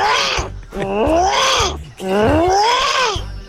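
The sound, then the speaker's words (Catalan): A person imitates an armadillo with a few throaty, groaning vocal wails, the last two long and drawn out, their pitch rising and then sagging. “Jo faré el soroll de l'armadillo.”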